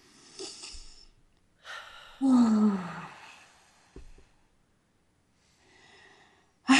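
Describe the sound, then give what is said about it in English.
Deep breaths during a guided tapping and relaxation exercise, a few soft, breathy inhales and exhales separated by pauses, the fullest one a long sigh-like release in the middle. “Okay, take a deep breath in.”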